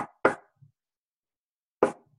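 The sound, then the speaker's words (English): A secret knocking pattern for a big wooden door at the back of a golf club company: two quick, sharp raps, a long pause, then one more rap, each short and clear against silence. “there was a door, big wooden door. And the knock was this.”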